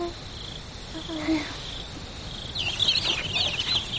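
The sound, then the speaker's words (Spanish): A chicken clucks as hands take it out of a wooden box: a few short, throaty clucks against a steady high chirring of insects that grows busier toward the end. “Unas manos sacan un pollo de una caja de madera.”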